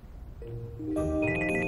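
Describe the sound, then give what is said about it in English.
A mobile phone ringing with an incoming call: bright electronic ringtone tones start softly, then swell into a fuller, layered chiming melody that keeps sounding to the end. “He reaches into his pocket and sees Merrily calling.”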